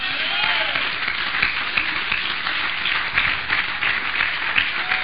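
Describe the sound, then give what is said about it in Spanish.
An audience applauds during a church service, a dense, steady wash of clapping that continues without a break for the whole clip at moderate loudness. “Denle un aplauso al cielo.”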